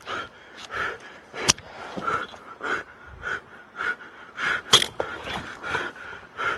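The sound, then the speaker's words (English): A man pants hard while climbing along a cable. His breathing comes in quick, rhythmic bursts, broken by a couple of sharper gasps. “So now, listen to him pant.”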